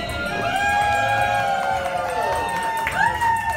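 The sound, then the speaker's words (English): Family and friends cheer as newlyweds slice their wedding cake at the historic Rust Manor House in Virginia. Sustained whoops and rising and falling calls ring out over a steady crowd murmur, with a fresh burst of cheering near the end. “the Kaufmans slice the cake, perfectly intact, to cheers from their family and friends in this audio provided by the venue's event supervisor.”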